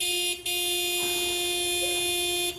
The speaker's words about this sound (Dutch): Als ze te lang op haar baasje in de auto moet wachten, drukt ze gewoon de toeter in.